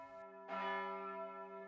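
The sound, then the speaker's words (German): A church bell of a church rings out with one fresh strike over the fading hum of an earlier stroke. Its deep, rich tone sustains alone and slowly decays. “Die Glocke von St. Markus”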